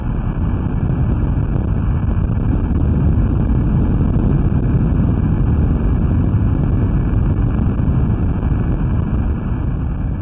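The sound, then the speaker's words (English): An underwater recording of the 2011 earthquake off the coast of Japan, picked up by a Navy listening station, a continuous loud low rumble of dense noise that stays steady throughout without distinct events. “That's the sound of the earthquake that erupted off the coast of Japan in 2011. You're listening to an underwater recording.”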